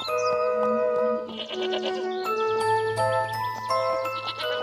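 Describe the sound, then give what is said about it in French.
Goats bleating in a meadow, their wavering calls mixed with jingling bell tones and sustained ringing notes that continue throughout. “C'est ainsi qu'il aperçut la bergère Paméla entourée de ses chèvres au milieu d'un pré.”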